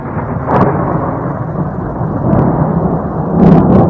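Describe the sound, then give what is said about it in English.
Rolling thunder booms during a winter snowstorm with heavy snow and strong gusts over Massachusetts and Connecticut. It is a loud, continuous low rumble that swells near the start and again near the end. “thunder snow. Pretty unusual event when a winter snowfall brings the thunder.”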